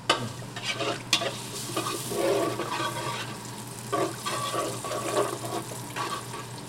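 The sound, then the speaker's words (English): Sizzling and stirring of fresh breadcrumbs toasting with five or six cloves of garlic in oil in a pan, a steady crackle broken by occasional louder scraping clicks. “So then you're tossing the breadcrumbs into the oil and garlic. And we'll let the whole thing toast up together.”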